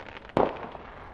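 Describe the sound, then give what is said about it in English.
A firework explodes in the distance: a single sharp bang with a short rumbling tail, faint and alone over quiet background noise. “those fireworks that you can hear, I can't see.”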